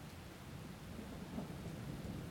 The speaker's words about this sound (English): It's raining.